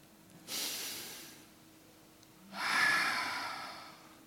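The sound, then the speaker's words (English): Two slow, deep breaths, each a soft, airy rush of air lasting a second or more, the second breath longer and louder than the first. “Take a breath with me again.”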